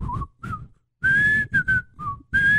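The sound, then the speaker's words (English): A person whistles the theme tune of an old black-and-white TV show, clear bright notes in short phrases with brief gaps between them, some notes sliding. “Boom, nailed it. You didn't think I could do that. I used to be able to whistle the whole theme song.”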